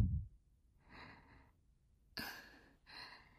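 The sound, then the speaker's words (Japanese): Slow breathing in and out, guided to ease shortness of breath. It is soft and quiet: a long, airy breath, a pause, then two shorter breaths, with no talk. “吸って、吐いて、吸って、吐いて、”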